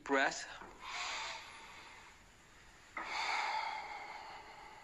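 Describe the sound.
Deep breaths drawn in with hands together in front of the heart during a guided meditation. Soft, airy hissing inhalations: a brief one first, then a longer, steadier one that sustains to the end.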